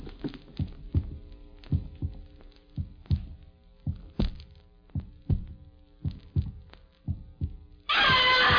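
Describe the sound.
A human heartbeat heard through a stethoscope, the pulse slightly fast: many deep, muffled thumps in a steady rhythm under a low hum, ending abruptly in a loud, harsh rustling noise.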